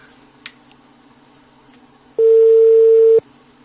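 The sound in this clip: Phone ringback tone on an unanswered call: one steady, mid-pitched electronic tone lasting about a second, loud and clean after near silence with a faint click earlier.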